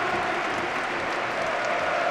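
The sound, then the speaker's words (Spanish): Stadium crowd at Atlético de Madrid's Metropolitano applauding and chanting for Raúl García as he walks onto the pitch, a dense, even wash of noise that holds steady throughout, with no distinct voices standing out. “Y el Metropolitano, Ainhoa, puesto en pie. Qué bien hace estas cosas el Atlético de Madrid. Coreando y aplaudiendo a Raúl García, que ha salido con su mujer al verde del Metropolitano.”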